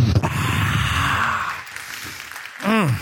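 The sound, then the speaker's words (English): A voice imitates a long breath being blown out: a sustained, breathy whoosh lasting over a second, which fades. A brief voiced exhale with a bending pitch follows near the end. “Can you imagine the breath of God just going?”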